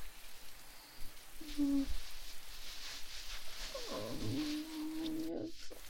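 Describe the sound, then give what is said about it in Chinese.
Soft, steady rain makes a continuous, even hiss throughout, quiet and unbroken. “下雨，好吧，”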